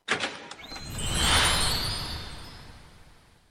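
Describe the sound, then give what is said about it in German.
A golden fairy-tale gate opens. A few quick clicks are followed by a swelling, airy whoosh that peaks and then slowly fades away. “Und nun öffnet sich das goldene Märchentor und wir hören die Geschichte von Aladdin und der Wunderlampe.”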